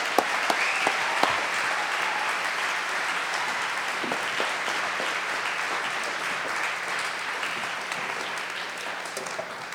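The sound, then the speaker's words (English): Audience applause in a church, steady dense clapping that holds at an even level for about ten seconds, with no voices rising above it. “So would you just make a ton of noise for the always well-dressed Dave Lomas from San Francisco.”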